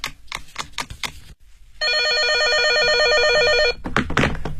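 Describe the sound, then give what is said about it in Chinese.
A telephone rings as someone calls a pharmacy: a steady electronic warbling ring lasting about two seconds, with brief knocks and handling clicks just before and after it. “我给药房打个电话。”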